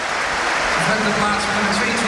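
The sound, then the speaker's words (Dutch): Applause from a Feyenoord football crowd for a player being substituted off the pitch, a steady wash of clapping that holds at an even level throughout. “Mooi applaus voor hem weer.”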